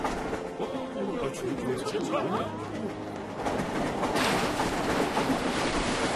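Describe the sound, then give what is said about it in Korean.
A train rolls into a station on arrival at a village, with steady rumbling rail noise and faint tonal squeals throughout, growing slightly louder and brighter near the end. “우리 열차는 잠시 후 버럭하카.”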